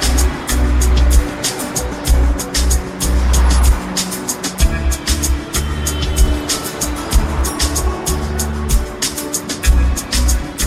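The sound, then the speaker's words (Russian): A motor scooter carrying two riders travels along a road, its engine giving a loud, steady drone with a low rumble and uneven pulsing throughout. “Майя с Валентиной Петровной катаются на мотороллере.”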